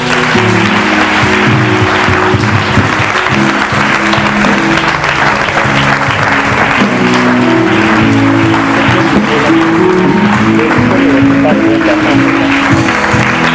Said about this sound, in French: Si tu es content, je veux que tu acclames le Seigneur.